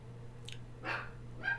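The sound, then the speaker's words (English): A dog barks three short times, fairly faint, over a low steady hum. “Jack, hush! So, not that I have any notion that Jack shouldn't be barking, but I don't want him to throw me.”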